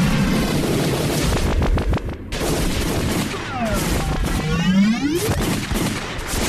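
Sci-fi blaster shots fired in a fight: a rapid volley of sharp bursts, then several loud, sweeping, zapping tones over dense noise.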